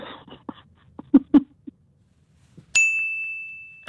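A quiz-answer ding sound effect: one bright bell tone strikes sharply and rings on, slowly fading, after a few soft, brief sounds.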